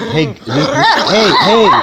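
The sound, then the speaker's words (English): A dog barks several times in quick succession. The barks are loud and short, with some higher, yelping tones. “This is not when I feel like having Def barking in my ear. She's the sweetest dog in the world”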